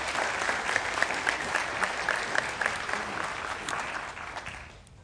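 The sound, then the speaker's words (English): An audience applauds steadily as two guests are welcomed to the stage, a dense wash of clapping that holds level and then fades away at the end. “So would you guys give me a hand and welcome Steve and Danielle to the stage.”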